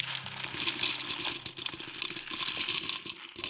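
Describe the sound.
Dry, uncooked pasta shaken in a steady, dense rattle of many small clicks and ticks that goes on without a break.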